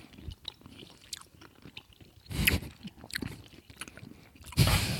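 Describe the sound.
Close, quiet chewing of soft caramel toffees with a chocolate filling, with irregular moist squishing and smacking sounds broken by a couple of louder, sticky bites.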